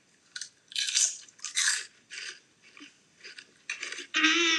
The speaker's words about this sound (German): Ich dachte, das wären Chips, weil es eins zu eins so klingt wie Chips und hat halt 100% eine Tüte Chips in der Hand.